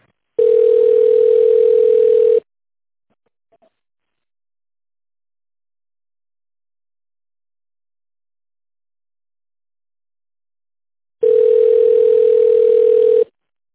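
Telephone ringback tone heard while waiting for an operator: two long, steady tones of about two seconds each, separated by a long silence, with no talk.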